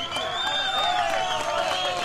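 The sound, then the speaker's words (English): A crowd cheers outside the San Jose mine in Chile as the first of 33 trapped miners reaches the surface after months underground. The roar is steady and continuous, with no breaks. “The crowd outside the San Jose mine in Chile cheers as Florencio Avalos becomes the first of 33 trapped workers to reach the surface after months underground.”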